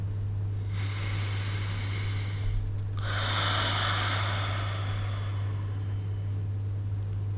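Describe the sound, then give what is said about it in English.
Breath drawn in through the nose for about two seconds, then a longer, softer exhale through the mouth lasting around three seconds, during a guided breathing exercise, over a steady low hum. “inhale through the nose and exhale longer through the mouth.”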